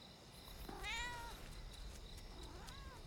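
A fluffy cat meows twice, a rising-then-falling call followed by a shorter, softer one, both faint over a steady hiss with light ticking.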